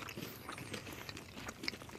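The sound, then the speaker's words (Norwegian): Biting into a salted caramel chocolate bar with a slightly porous texture, then chewing: faint, irregular crunches and soft mastication, with one sharper click near the end. “Tar en bit.”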